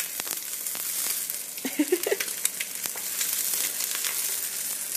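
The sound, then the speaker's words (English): An egg fries in a pan just after being flipped whole without breaking. A faint, steady hiss of sizzling oil carries a burst of small crackles and pops partway through. “Alright, I'm gonna try to flip over the egg. 1, 2, 3. Oh, yeah! Woo! It didn't even break.”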